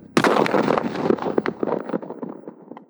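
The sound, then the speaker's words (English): A single loud gunshot blast from a pump-action gun cracks out, then rolls away in a long, rumbling decay with several smaller sharp cracks scattered through the tail. “One hand still as the other pumps the object back and forth. The telltale sign of a gun cocking. And then a blast rings out.”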